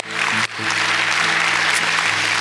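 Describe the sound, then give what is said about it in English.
An audience applauds during a church service, dense even clapping that swells in quickly after a brief dip and holds steady over sustained low instrumental tones. “Can we give God an applause?”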